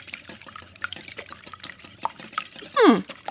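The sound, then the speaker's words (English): Pineapple upside-down cake batter being mixed: quiet, uneven stirring and scraping strokes ending in one louder, sharper scrape. “I'll get back to this pineapple upside down cake. Again, maybe cool it with the mixing.”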